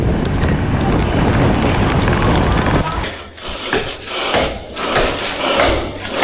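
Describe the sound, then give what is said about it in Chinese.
Wind rushes across the microphone while riding on a food delivery run on a hot day. A dense, loud roar holds for about three seconds, then drops into softer, uneven gusts. “这个骑行中吹到我身上的风都是热风。”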